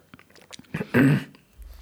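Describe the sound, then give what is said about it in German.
A quick sip of a drink taken during a conversation: faint mouth clicks, then a short, louder slurping swallow lasting about a third of a second, followed by quiet. “jetzt muss ich doch einen Schluck trinken”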